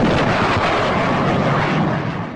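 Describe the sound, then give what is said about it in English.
A sonic boom effect of a jet fighter: a loud, dense roar and rumble that holds steady for about two seconds, then tails off slightly at the end. “Sonic booms not included with the Sonic Baitfish Strike unless you are fishing for jet fighters.”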